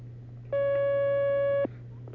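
A single steady telephone line tone sounds as a caller connects to a phone-in line. It holds for about a second at an even level over a low constant hum, then cuts off abruptly.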